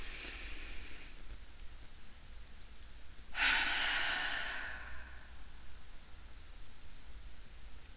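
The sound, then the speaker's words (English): A person draws one deep breath in, a broad airy hiss that swells abruptly and tapers off over a second or two, set against faint steady background hiss. “Okay. Ready? Yes. Deep breath in.”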